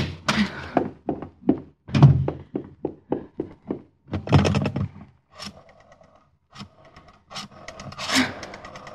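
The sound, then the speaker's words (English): Rattling and thunking of a door lock as someone struggles with a key: many sharp knocks and clicks in an irregular burst, then a short lull, then more scraping clatter. “Oh, where's my key? Where is it? Oh, darn lock.”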